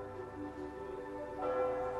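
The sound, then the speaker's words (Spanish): Church bells ring in a Mediterranean town setting, a steady, sustained tonal ringing with layered overtones that holds throughout and swells slightly toward the end, with no talk. “Las campanas de una iglesia suenan de fondo”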